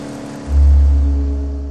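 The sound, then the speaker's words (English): A vehicle engine revs hard as the rider guns it on a dirt road, spinning the rear wheel: a deep, heavy roar surges up sharply, then holds and slowly eases off, with no voices. “The haze of dust burst from the rear wheel as Ryan gunned it, leaving the sec boss standing in the dirt, watching them go.”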